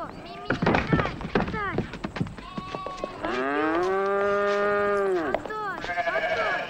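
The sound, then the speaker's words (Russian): A cow moos as a woman leads it out, giving one long, low, drawn-out moo in the middle, with other rough animal calls and noises before and after. “Женщина выводит корову.”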